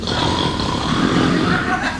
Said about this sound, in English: And as the mouth opens, it snores. There's a giant soundtrack inside.